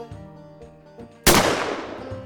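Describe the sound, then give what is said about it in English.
A single shotgun blast at night gives one sudden, loud, sharp report that decays quickly into a rushing tail, breaking into a quiet, low, steady tonal background. “Another shotgun blast tore through the night behind me, closer than the first.”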